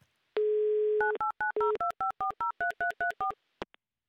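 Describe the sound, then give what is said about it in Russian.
A steady telephone dial tone sounds while a radio listener in Ryazan is being called, then gives way to a quick run of short keypad beeps and a final brief blip. “В Рязань я сейчас и буду звонить”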